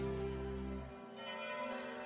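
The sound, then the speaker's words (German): Church bells of the parish church of St Peter in Wiebelsheim ring with loud, sustained, humming tones that thin out after about a second, leaving a softer lingering resonance. “Und das hier sind die Glocken der Pfarrkirche in Wiebelsheim.”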